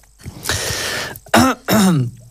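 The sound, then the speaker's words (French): A presenter clears their throat during a live radio sports bulletin. A long rasping clear is followed by two short, voiced throaty grunts, loud and close. “Pardon. Petit chat dans la gorge.”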